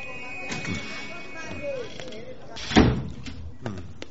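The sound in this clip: A door is opened with a sharp, loud clunk near the middle, set among quieter knocks and rattles, with people talking around it.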